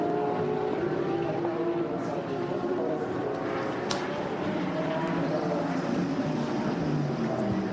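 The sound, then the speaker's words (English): Steady, droning engine tones from Audi and Porsche race cars entering the pit lane, with layered harmonic hums holding level throughout and a continuous rumbling wash beneath. “Into the pits comes the Audi. Into the pits comes the Porsche.”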